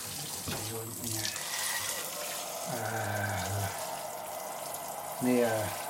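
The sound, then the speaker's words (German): Water runs steadily from a tap with a continuous broad hiss. Voices speak in short bursts over the flow. “Na, nun machen Sie mal das Wasser an.”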